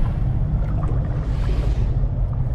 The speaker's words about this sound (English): A huge tanker heads across the ocean.